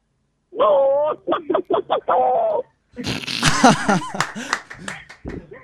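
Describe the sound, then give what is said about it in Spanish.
A person's voice imitates a hen trying to fly mixed with a cow. A run of short, tonal vocal bursts is followed after a pause by a louder, raspy stretch of squawking and flustered, breathy noise. “fue como una vaca, un perro o pollo. No, para mí fue medio gallina intentando volar con una mezcla de vaca también.”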